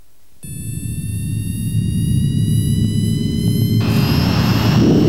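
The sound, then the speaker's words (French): An airplane taking off for Pointe-à-Pitre: jet engine roar starts abruptly after a brief quiet and builds steadily, a deep rumble topped by a sustained high whine that shifts near the end. “Les passagers à destination de Pointe-à-Pitre sont priés d'attacher leurs ceintures. Décollage immédiat.”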